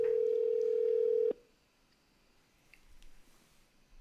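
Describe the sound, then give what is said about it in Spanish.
A telephone dial tone sounds while a call to a guest is placed: one steady, unwavering mid-pitched hum, loud for about a second, then it cuts off abruptly, leaving faint background noise. “Tenemos aquí el aparato que utilizo para conversar con nuestro invitado. Estamos llamando a Jerry Batista, dirigente de la selección nacional.”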